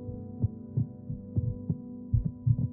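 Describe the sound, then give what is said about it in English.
Human heartbeats, two sets of them, play as soft, low thumps in a steady repeating series over a constant low hum, some beats falling close together in pairs. “Here is the sound of your heartbeat, and here is the sound of theirs. Listen as your heartbeats begin to merge.”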